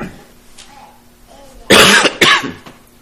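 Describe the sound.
Two harsh, loud coughs in quick succession from a person with a troubled, sore throat, following a quiet stretch with little sound.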